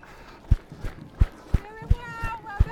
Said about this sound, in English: I'm experimenting here with run walking.